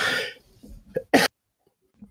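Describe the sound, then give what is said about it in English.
Harsh coughing from a man who has had a cough for months: a few abrupt, raspy bursts, the loudest coming just past the middle, followed by quiet. “I can't stop coughing, man. I've been coughing for like three months,”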